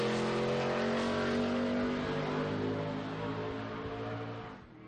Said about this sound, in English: And we are back here at Peterborough Speedway. The Lucas Oil Sportsman Cup. Breast Cancer Society 100 down to the final 7 laps.